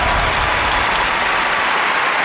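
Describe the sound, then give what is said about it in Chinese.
Loud audience applause at a televised family competition show as contestants are called onto the stage, a thick continuous roar of clapping that stays steady for the whole stretch. “让我们掌声有请吴子晴、肖军来到舞台上”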